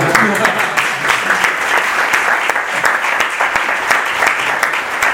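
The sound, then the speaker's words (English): Audience applause at a lecture for an interpreter: dense, steady clapping from many hands fills the whole five seconds at an even, loud level without pause. “Get another round of applause?”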